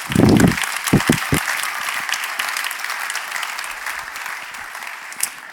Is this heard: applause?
yes